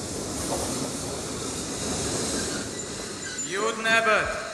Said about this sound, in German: Der gerade eingefahrene Zug fährt weiter nach Plymouth.